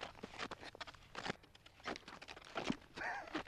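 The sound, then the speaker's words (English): Faint, uneven footsteps from someone walking in strapped-on footwear, a few soft irregular steps with scuffing between them. “Okay, well let's give this a shot. All right, so you just stand up and then you just walk.”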